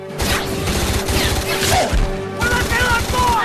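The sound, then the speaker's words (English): Gunfire in a shooter video game: rapid, repeated shots and impacts through the whole clip, loud and dense, mixed with overlapping voices. “Shoot him again.”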